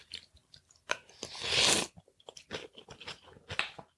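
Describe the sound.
Crunchy kimchi being chewed, with many wet, irregular crunches and one louder, longer bite near the middle. The chewing is close and fairly quiet, with no talk.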